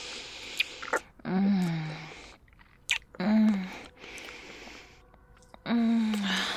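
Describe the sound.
Someone chewing and tasting food: wet mouth sounds and smacks in three longer bursts, with low voiced murmurs between them.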